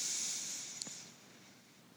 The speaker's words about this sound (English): have a breath in through your nose